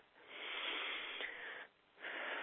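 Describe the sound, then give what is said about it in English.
A big deep breath: a long, airy, wheezy rush of air lasting over a second, a brief silent pause, then a second breathy stretch begins. “Now let's end this beautiful process with a nice big deep breath.”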